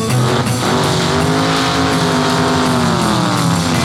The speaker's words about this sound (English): I started to make that Mustang unwind. Pushed the foot feed clear to the floor